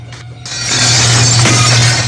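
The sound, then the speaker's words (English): A window is smashed from outside with a crowbar: a loud, sustained crash of shattering glass with harsh, bright noise over a low steady hum. “A man wields a crowbar, smashing a window from outside.”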